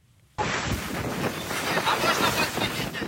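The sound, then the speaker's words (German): Wind roar and surging waves of a stormy Black Sea at night around a damaged ship in distress: a dense, loud rushing noise that starts abruptly after a brief quiet moment and continues steadily. “Die See ist stürmisch.”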